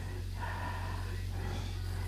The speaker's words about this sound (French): Là, c'est ton cœur qui te fait respirer comme ça?